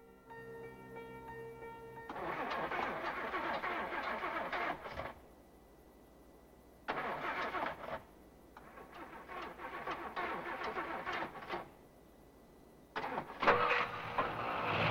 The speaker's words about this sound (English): The engine finally fires and he pulls away.